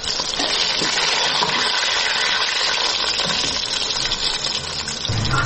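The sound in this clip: Mushrooms, first boiled and steamed, cook in a pan with browned onion, giving a steady, dense hiss of sizzling and bubbling moisture with no talk.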